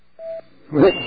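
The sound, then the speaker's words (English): A voicemail answering tone sounds as one short, steady, mid-pitched beep, followed after a brief gap by a voice starting to speak. “Just leave a message at the sound of the tone.”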